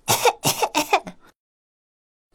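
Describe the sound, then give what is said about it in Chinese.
A voice imitates a fire-breathing dragon coughing after spicy food burned its throat: three rough coughs in quick succession, then silence. “喷火龙的喉咙被辣得不停的咳嗽”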